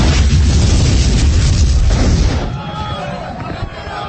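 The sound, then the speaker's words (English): An explosion as a gunpowder and ammunition supply blows up during a battle: a loud, broad roaring rumble for about two and a half seconds, then a lower, fading rumble. “it sounds like we hit their powder and ammunition supply as well. It looks like it's taking the top of a mountain off.”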